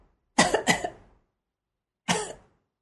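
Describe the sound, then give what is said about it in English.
Gentle coughs, done as a breathing exercise to engage the diaphragm, come as two short coughs in quick succession, then a pause and a single third cough. Each is brief and breathy, with silence around them. “One simple cough. You feel it? The pelvic region is pushing up your diaphragm.”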